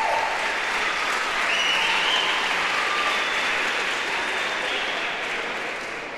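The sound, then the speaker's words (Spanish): Audience applause fills a stage show as a host calls for more people to come up, a dense, steady wash of clapping that holds loud throughout and eases slightly at the end. “Otro aplauso para que suban porque no subieron 8.”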